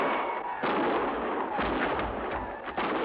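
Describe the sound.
Gunfire echoing across a canyon during a firefight: dense, sustained bursts of shots blur into a continuous rolling crackle and rumble, with a few heavier surges and no voices.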